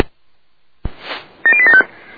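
Keypad tones as code 875 is entered on a radio: a single click, a soft burst of noise, then a short cluster of high, bright beeping tones.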